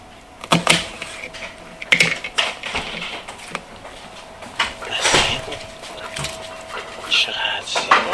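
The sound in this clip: A knife chops an onion into thin slices in a kitchen, making a few sharp, irregular clicks and taps spaced seconds apart while a voice speaks over them.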